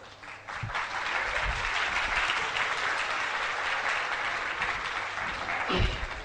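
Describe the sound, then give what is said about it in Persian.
An audience clapping steadily in dense, sustained applause that lasts the whole time, with a few low thumps underneath. “فقط برای چی دست دادین من متوجه نشد”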